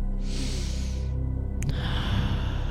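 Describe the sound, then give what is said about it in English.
A deep breath: a strong airy inhale hiss comes first, then a brief click and a softer, longer exhale, all over a low steady background tone. “take a nice deep breath.”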